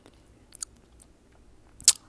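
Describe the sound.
Crisp crunching bites into hard-shell ground turkey tacos topped with tomatoes, lettuce and onions: a few sharp crackling chews separated by near silence, the last crunch loudest, with no talking.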